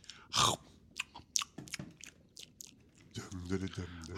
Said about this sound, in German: Jetzt hat er gegessen, Schatz! Ja, ich höre es!